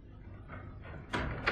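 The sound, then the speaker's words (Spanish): A small key slides into the lock of a heavy bolt, making a few faint scraping rustles, with the last two bursts louder and brighter. “La inserta en el ojo de la cerradura que hay en el centro de un pesado cerrojo.”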